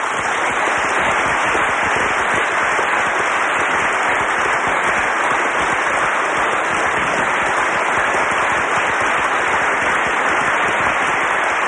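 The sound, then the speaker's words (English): Sustained applause from a standing ovation at the Oxford Union for New Zealand's prime minister: a dense, loud wash of clapping that holds steady with no break. “A standing ovation from here in the Oxford Union for the Prime Minister of New Zealand, Mr. David Longie.”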